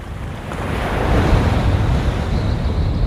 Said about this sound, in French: Prise de son au bord de mer, ça demande beaucoup de temps sur place, quoi.